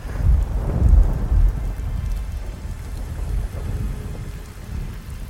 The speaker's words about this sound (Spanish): Las gotas de fría agua furiosas rebotaban incansables en la ventana del pequeño cuarto. Los relámpagos se sucedían uno tras otro junto con los martillantes truenos que hacían vibrar toda